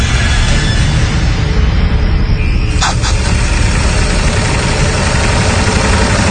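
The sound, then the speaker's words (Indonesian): A sewing machine runs nonstop, its motor giving a loud, continuous mechanical drone with a rough, buzzing texture that holds steady from start to end. “suara mesin jahit itu masih terdengar. Jelas ini bukan sound effect atau back sound dari radio.”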